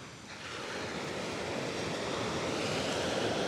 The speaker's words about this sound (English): And I'm looking back down to the southern end of the beach, which abruptly changes from beach into jagged cliff faces and thick native New Zealand